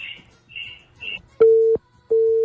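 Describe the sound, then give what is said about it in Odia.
Phone line tone after a call suddenly drops: brief voice fragments give way to two steady, mid-pitched beeps, each lasting about a third of a second, separated by a short silence. “ଅଚାନକ phone କଲ୍ଟି କଟିଗଲା”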